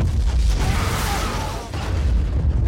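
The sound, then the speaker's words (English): A missile explosion destroying a submarine makes a loud, deep rumbling roar that sustains throughout, dipping briefly in the middle before swelling back to full strength. “The HK fires a missile.”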